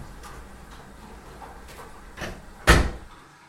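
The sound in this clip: A door shuts on an upstairs landing at night: a soft knock, then one firm, sharp thud near the end, preceded by faint, quiet movement.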